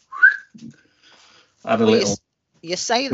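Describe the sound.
A person gives a brief, bright whistle, one short note that slides upward in pitch, followed by a pause and then speech.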